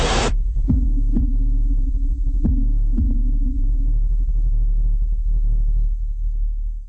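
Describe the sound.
Heartbeat sound effect: a few deep, thumping double beats over a continuous low rumble and hum, fading slightly toward the end.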